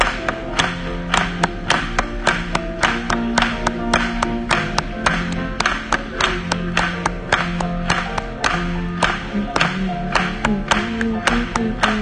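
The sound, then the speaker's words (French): An audience claps steadily in time with a gospel song at a church service, the sharp, regular claps running throughout over sung music. “Let's clap it. Continuons à acclamer.”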